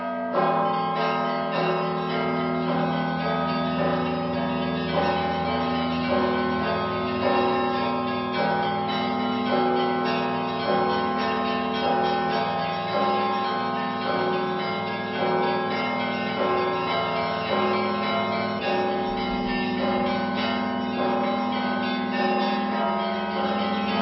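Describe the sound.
Festive bell peal rung by a student of the Vitebsk school of Orthodox bell ringers, several bells sounding together in a dense, sustained wash of overlapping ringing tones that stays loud and steady throughout.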